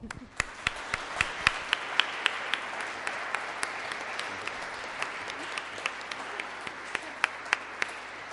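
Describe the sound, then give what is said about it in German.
Church audience giving hearty applause: a soft bed of many hands clapping, with scattered sharp individual claps popping out above it at an uneven rhythm throughout. “Und wir tun das mit einem kräftigen Applaus.”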